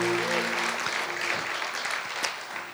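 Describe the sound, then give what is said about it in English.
Church audience applauding as a round of praise for Jesus Christ, dense, steady clapping that holds at an even level throughout. “Why don't you give Jesus Christ a round of praise?”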